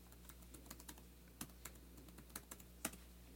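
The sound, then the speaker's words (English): Keys clack on a computer keyboard in faint, irregular taps, a quick run of strokes with a few sharper hits standing out. “Let's see what happens if I type in MDMA Lifestyle Wave.”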